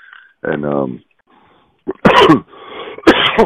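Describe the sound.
Someone clears their throat and coughs. A voiced, rumbling throat-clear is followed after a pause by two harsh, loud coughs spaced about a second apart.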